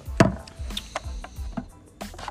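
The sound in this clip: Knife slitting open the seal on a package, heard as a few sharp, brief cutting and scraping sounds spaced across two seconds, with no talk over them.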